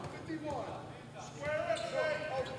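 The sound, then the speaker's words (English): A basketball is dribbled on a high-school gymnasium floor late in a game quarter. Steady bounces sit under a commentator's continuous talk and background crowd noise. “Aimlessly dribbling the ball by the Explorer at the center logo spot here in the LaSalle Gymnasium.”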